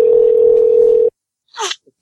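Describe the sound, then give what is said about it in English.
A telephone dial tone sounds as someone dials a call. The loud, steady tone holds for about a second, then cuts off into silence before a brief, soft burst of noise. “Let me try to call the Nation of Islam Oakland back here.”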